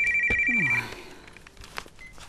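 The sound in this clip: A telephone rings briefly with a steady, shrill electronic tone that stops within the first second, followed by faint clicks and rustling.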